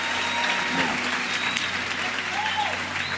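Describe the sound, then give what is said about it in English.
A church audience applauds to welcome a preacher up, steady continuous clapping from many hands with a few voices calling out over it. “Can you put your hands together and welcome up this man of God?”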